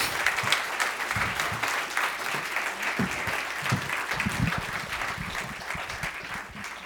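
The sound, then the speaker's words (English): Church audience applauding to welcome a guest speaker at a Freedom Sunday service. Sustained, dense clapping carries at a steady level for several seconds, with scattered low thumps mixed in. “So I'm going to put your hands together and welcome Miss Julianne Benzel as she comes this morning.”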